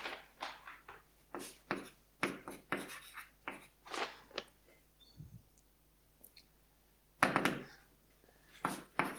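Handwriting during a maths lecture on logic proof trees: many short scratchy strokes and taps in quick bursts, separated by brief pauses, fairly faint and with no talk.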